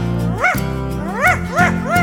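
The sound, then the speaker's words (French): A dog barks at birds in a garden: four high, yelping barks, each arching up and down in pitch, the last three closer together, over a steady low hum. “Les oiseaux dans le jardin qui font aboyer le chien.”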